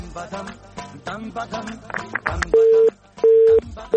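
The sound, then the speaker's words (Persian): Telephone busy tone after a dropped call-in to a phone line. Brief garbled sound on the line is followed by two loud, steady, flat beeps with a short gap between them. “خب تماس بانو زینت وفا بود، فکر میکنم قطع شد”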